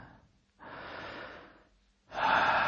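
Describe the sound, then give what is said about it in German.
Deep breaths during a standing breathing exercise with feet hip-width apart, two long, airy breaths separated by a short pause, the second louder and more forceful, with no voice over them. “Jetzt genehmige dir einen schönen Atemzug”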